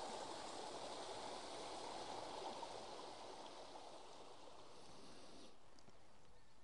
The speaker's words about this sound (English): it provides a neat little way of getting over the beck rather than getting wet feet